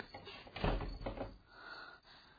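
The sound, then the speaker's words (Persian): A door closes with one dull, muffled thud early on, followed by faint rustling and handling noise as it settles. “در رو هم ببند.”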